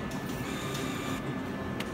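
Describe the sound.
Steady mechanical whirring of a slot machine bill acceptor pulling in a $100 bill, lasting about two seconds over constant background noise.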